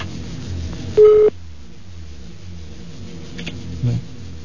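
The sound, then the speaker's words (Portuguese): Telephone keypad being dialed: one clear electronic key tone beeps briefly, and a fainter blip follows a few seconds later over a low, steady murmur. “Vamos ligar pra professora Zezé”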